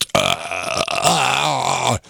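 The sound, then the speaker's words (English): A single long, loud, guttural burp after drinking a cold beer. It croaks and wavers for about two seconds and is heard alone, without talk. “It's like The Exorcist with a burp.”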